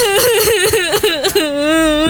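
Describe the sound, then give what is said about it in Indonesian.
A person cries loudly in a shaky, wavering wail broken by sobbing catches in the middle, then settles into a long sustained steady wail at the end. “Loh, kok makin kenceng sih nangisnya beb?”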